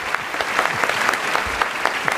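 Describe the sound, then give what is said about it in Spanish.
An audience claps for two guest performers after a Macbeth scene, a steady roll of applause with individual sharp claps standing out through it. “el aplauso para tus dos invitados de hoy”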